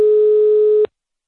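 A single steady telephone tone sounds loudly at one even pitch for under a second as a call is being dialed, then cuts off abruptly into silence.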